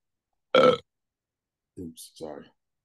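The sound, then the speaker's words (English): A single loud, throaty burp, then a pause and a couple of short vocal sounds. “That burp was immaculate.”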